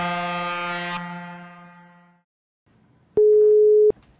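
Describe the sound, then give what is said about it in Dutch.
Telephone ringback tone heard while calling someone: a single steady, mid-pitched tone lasting under a second, loud and clean, preceded by a fading harmonic tone and a short silence. “Dan gaan we even bellen met Henk.”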